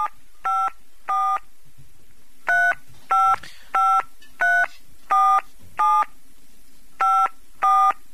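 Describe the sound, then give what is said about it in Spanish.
Telephone keypad tones dial an international call: eleven short, bright dual-tone beeps in uneven bursts, with longer pauses after the second and the ninth, heard alone over faint line hiss. “Bueno, estamos llamando. Llamada internacional, si las hay.”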